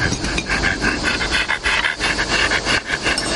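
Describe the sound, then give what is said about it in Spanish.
A dog pants rapidly and steadily, with many quick breathy bursts in an even rhythm. The panting is fairly loud and heard alone. “Mira al perro que está junto a él.”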